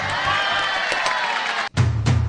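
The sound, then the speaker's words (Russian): Cheering and applause from an audience for a contest winner who has just sung on stage, a loud, continuous crowd roar that breaks off abruptly near the end. “Аплодисменты вам.”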